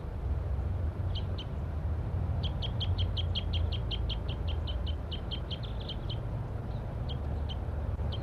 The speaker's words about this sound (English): Wild bird. Wild bird. Those two males are still up in the oak tree, looking down.